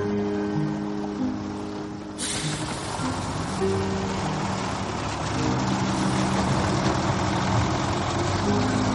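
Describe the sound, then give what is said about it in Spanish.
A bus engine rumbles low and steady as the bus maneuvers with its door open. A broad hissing wash joins after about two seconds and continues under the hum. “El autobús maniobra con la puerta abierta. La chica sube al autobús.”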